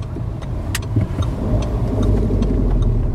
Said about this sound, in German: Wir fahren zum Stadion.